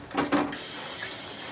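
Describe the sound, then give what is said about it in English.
Tap water runs briefly as onion is rinsed off hands at a kitchen sink, a short rushing burst that quickly fades to a faint trickle. “So I just washed away a little bit of the onions off my hands”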